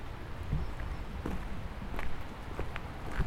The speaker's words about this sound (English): Now, turn back towards the stone bridge. Walk up to its cobbled stones.